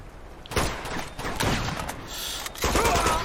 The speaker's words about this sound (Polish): Kto do mnie strzela?